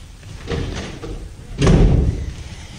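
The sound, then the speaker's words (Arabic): A door is shut with one heavy thud and a low rumble, which stands out over a noisy background after some softer shuffling. “شد الباب.”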